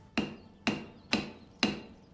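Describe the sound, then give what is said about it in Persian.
Hammer blows driving nails into a window frame to hold it shut: four sharp, evenly spaced strikes about half a second apart, each a crisp crack with a short ringing tail, with no talk. “این پنجره ها قفل نمیشن، منم سعی دارم میخشون کنم”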